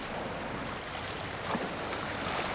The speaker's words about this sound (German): Nur die Wellen, die an die Klippen klatschen.